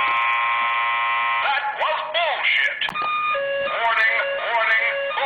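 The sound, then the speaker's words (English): A buzzer sound effect gives a harsh, flat, buzzing tone for over a second, then a person talks. “Yeah, I've got to give her a buzzer on that.”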